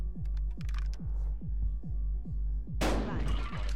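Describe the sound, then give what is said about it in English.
A shotgun fires at the dealer in a video game, a single loud, sharp blast. It comes after a steady series of low, pulsing thumps. “Handcuffs. Shotgun. Aim at yourself. Actually, too late. Aim at dealer.”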